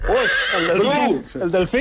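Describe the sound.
A horse whinnies during an animal-sound guessing game, a loud, drawn-out neigh with a wavering, quavering pitch that rises and falls before breaking off.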